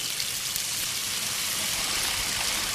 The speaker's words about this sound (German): sollte man sie sicherheitshalber vorher mit Wasser abspülen.